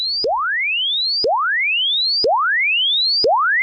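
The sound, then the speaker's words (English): Sweep tone for testing the linearity of an AM transmitter and its antenna system: four loud, clean tones, each rising smoothly from low to high pitch and repeating about once per second, alone without voices. “In broadcast engineering, we use what is known as a sweep tone to be able to check the linearity of an AM transmitter to make sure that all frequencies will pass both through the transmitter and the antenna system. A sweep tone sounds something like this.”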